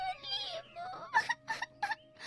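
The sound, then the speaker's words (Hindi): A girl cries in whimpering, wavering sobs. A drawn-out wail is followed by a few short, rhythmic sobbing bursts, all fairly faint. “लड़की तंग आकर रो पड़ी।”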